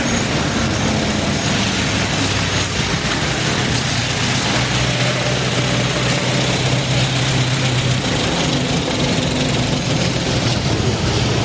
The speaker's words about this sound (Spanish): Mientras el camión de Mariano y Ramón pasa por el mismo sitio donde Cándido se apeó del autobús.